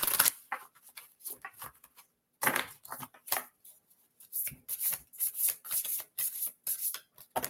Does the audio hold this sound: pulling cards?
yes

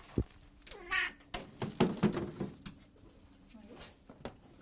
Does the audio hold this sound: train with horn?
no

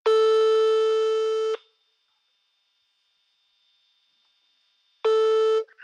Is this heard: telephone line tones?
yes

